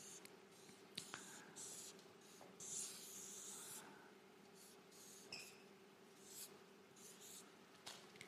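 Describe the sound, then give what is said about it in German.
A sketch being drawn by hand with a pen or pencil on paper, producing faint, scratchy strokes in short intermittent bursts separated by brief pauses. “Jetzt versuche ich das mal irgendwie zu zeichnen, wie ich mir das vorstelle.”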